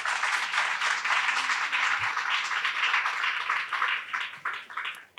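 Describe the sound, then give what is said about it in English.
Audience applause welcomes three panelists at a discussion event. A dense, steady wash of clapping holds for about four seconds, then thins out and stops. “So please give a warm welcome to our three panelists.”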